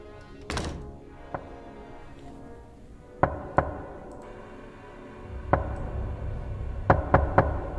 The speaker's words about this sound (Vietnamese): Đột nhiên có tiếng gõ cửa vang lên.